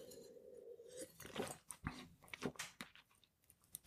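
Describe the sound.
Sips and slurps of red wine from South Tyrol being tasted, a few wet, bursty mouth sounds that follow a brief steady tone at the start, with no talking.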